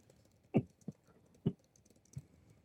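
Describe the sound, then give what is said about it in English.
Faint, sparse keystrokes on a computer keyboard: a few separate taps spaced irregularly, with quiet gaps between them. “Sorry, I'm typing to Red's place.”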